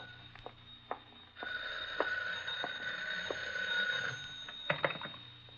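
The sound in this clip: An old-style telephone bell rings once as a single continuous ring lasting about three seconds. It sounds fairly faint and bright, with a few sharp clicks and knocks before and after it.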